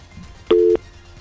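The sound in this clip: A single telephone tone sounds after a phone call drops during a call-in interview. It is one steady, fairly loud electronic note lasting about a quarter second, with only faint background noise before and after.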